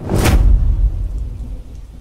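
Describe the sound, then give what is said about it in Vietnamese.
Thunder rumbles in a rainstorm: a loud crack lands early, then a deep rumble rolls on and slowly fades under steady rain noise. “Một ánh chớp lóe ngang trời. Dưới ánh sáng đó, chúng tôi nhận ra đó là Linh. Linh đứng trong mưa, tóc tai ướt đẫm”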